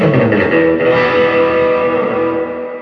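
Distorted electric guitar through a Vox amp with reverb set at 6, a loud sustained chord ringing with thick harmonics and a reverberant wash, slowly thinning toward the end.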